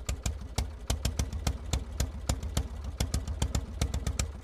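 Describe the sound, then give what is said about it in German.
An early gas engine from 1879 runs with a fast, steady chugging knock, many evenly spaced beats clattering at moderate volume with no voices. “Am Silvesterabend 1879 springt sein Motor erstmals an.”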